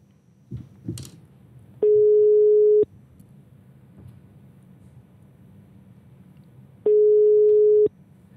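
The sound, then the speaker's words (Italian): Telephone tones sound while a call is being placed: two long, steady, mid-pitched beeps, each lasting about a second, separated by a gap of several seconds. A faint noise bed runs throughout, with a couple of soft clicks near the start. “Lo chiamiamo? Chiamiamo il sindaco di Livorno? Chiamiamo adesso, facciamo un'imboscata al sindaco di Livorno.”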